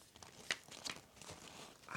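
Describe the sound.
Paper being folded and pressed flat makes faint, sharp crinkles and soft crackles at irregular moments, very quiet, with no talk.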